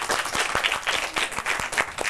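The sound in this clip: Students applaud the guest speakers at the close of a talk on a reservoir as souvenirs are handed over. Dense, overlapping hand claps run steadily, with a few sharper claps standing out.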